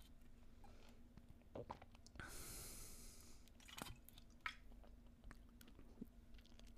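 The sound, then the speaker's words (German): A person takes a quick sip of a drink: soft, faint mouth and swallowing noises with one short hissing slurp in the middle, and no talk. “Ja, ich trinke mal ganz kurz einen Schluck.”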